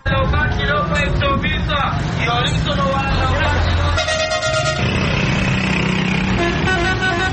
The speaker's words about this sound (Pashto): په پېښور کې د شهر شور خلک پتنګ کړي.